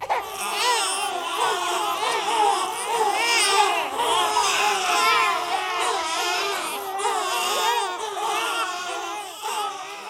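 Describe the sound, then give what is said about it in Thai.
Many newborn babies crying loudly all at once form a dense, unbroken chorus of overlapping high wails that waver up and down throughout, with no pause between cries. “มะแม่เห็นเด็กแรกเกิดมากมายกำลังแหกปากร้องไห้จ้าแข่งกันเป็นร้อยเป็นพันคน”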